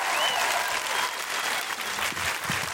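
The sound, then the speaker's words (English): Loud applause from a comedy audience welcoming a comedian to the stage: thick, continuous clapping that stays strong and even throughout. “Please put your hands together, make enormous woohooing noises, and break laws if necessary to welcome to the stage Mae Martin.”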